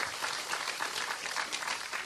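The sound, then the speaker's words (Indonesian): Applause for a youth group at an evening religious gathering: dense, steady clapping from an audience that holds at an even level throughout, with no voices over it. “Tepuk tangan untuk pemuda Serandaan.”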